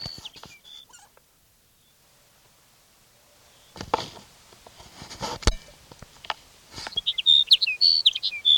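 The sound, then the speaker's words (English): Sage sparrow song: short, high, tinkling phrases at the start and again near the end, with a stretch of near silence and then scattered thumps and knocks between them. “Here's sage sparrow number one for the day.”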